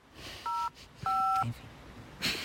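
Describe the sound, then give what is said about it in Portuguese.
Touch-tone beeps as a telephone number is dialed, with two distinct dual-tone keypresses, clear and steady against a quiet background. “Estás a ligar para quem?”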